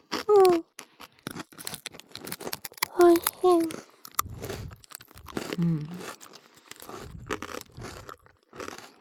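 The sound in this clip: Crunching of a Japanese rice cracker (senbei) being eaten, heard as many sharp, dry, crackling bites and chews in an irregular rhythm, interrupted by a few short voiced hums.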